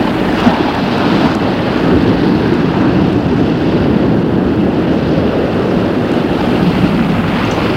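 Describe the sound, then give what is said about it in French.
Turbulent lake water at night churns in a loud, dense, unbroken rush of waves. The wind-like wash holds steady throughout with no pauses or voices. “Il est au bord du lac, il fait nuit. L'eau du lac est tumultueuse.”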